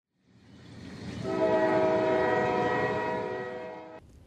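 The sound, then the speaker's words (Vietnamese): A train horn sounds as a train arrives at its final station. A low rumble swells into one long, steady, loud harmonic blast that holds for several seconds, then cuts off abruptly. “Miki Station xin thông báo, đoàn tàu Miki đã dừng chân tại trạm cuối cùng của hành trình”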